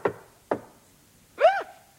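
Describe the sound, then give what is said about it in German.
Knocking on a workshop door: two sharp raps about half a second apart, followed by a short, voiced exclamation. “Plötzlich klopfte es an die Tür.”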